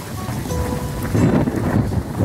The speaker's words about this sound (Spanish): Llueve, truena, todo. Cae la lluvia.